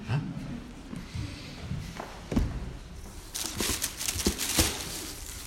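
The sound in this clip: Rummaging through a gift package: irregular rustles, soft crinkles and a few dull thuds and taps, growing busier and louder toward the end.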